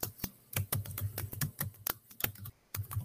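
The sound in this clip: Typing on a computer keyboard, many quick plastic key clicks in an uneven rhythm with short pauses, with no talk.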